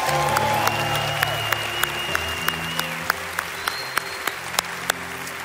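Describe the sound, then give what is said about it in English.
Church audience applauding, dense continuous clapping punctuated by sharp, evenly spaced louder claps, with steady sustained tones running beneath. “let's give the Lord a big hand. Come on, church.”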